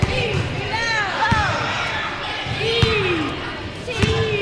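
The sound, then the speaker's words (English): Basketballs bounce on the Cook Elementary School gym floor as about 80 children practice, giving a few sharp, hard thuds spaced apart over a steady din of children's voices calling and shouting. “In one game, the children bounce the ball back and forth, calling out one letter for each pass until they spell the word poetry.”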